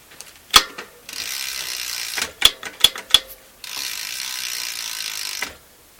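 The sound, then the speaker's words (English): Ratcheting as a pinch bolt is tightened on a bicycle's rear brake cable: two stretches of continuous mechanical ratchet whir, with a few sharp metallic clicks between them. “Nip up the pinch bolt, give him a squeeze.”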